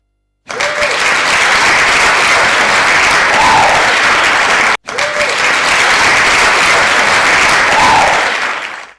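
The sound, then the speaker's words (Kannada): Applause for participants who showed their talents in a science quiz and song programme: a dense, loud clatter of many clapping hands that holds steady, breaks off briefly midway, then resumes and tapers at the end. “ಆ ಪ್ರದರ್ಶನಕ್ಕೆ ಆಕಾಶವಾಣಿ ಭದ್ರಾವತಿಯಿಂದ ನಿಮಗೆ ಚಪ್ಪಾಳೆ.”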